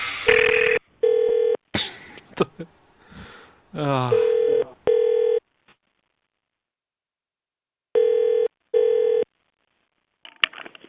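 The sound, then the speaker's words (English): Six telephone keypad beeps sound on a call to a motel's automated phone line. Each is a short, steady tone, and they come in pairs with gaps between them, while a recorded voice speaks between the first and later pairs. “If you know your guest room number, then dial it now.”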